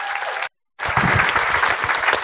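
A festival audience applauds panelists taking the stage: a brief burst of clapping breaks off for a moment of silence, then resumes, dense and steady.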